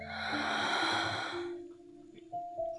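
A deep inhale in a guided relaxation exercise, drawn as a long, airy breath for about a second and a half, then fading into quieter moments with soft steady tones underneath.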